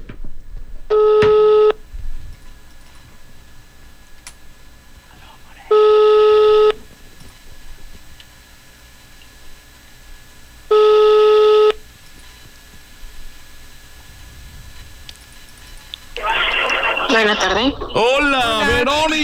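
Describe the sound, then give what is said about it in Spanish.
A call is placed during a radio giveaway, and its telephone ringback tone sounds three times as steady, evenly spaced electronic rings separated by long silent gaps. A voice then begins speaking at the end. “Vamos con la llamada. ¿Suerte para quién?”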